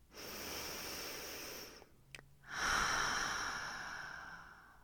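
A single deep breath, heard alone: a long, steady inhale, a short pause, then a longer, fuller exhale that slowly fades away.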